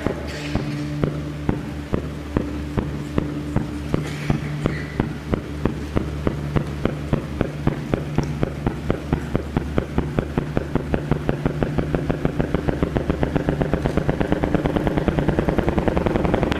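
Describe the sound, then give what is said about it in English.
Sonified signal of a light black hole falling into a very heavy one: a long train of sharp, banging pulses over a steady low drone, the beats coming steadily faster and denser toward the end. “Imagine a lighter black hole falling into a very heavy black hole. The sound you're hearing is a light black hole banging on space each time it gets close.”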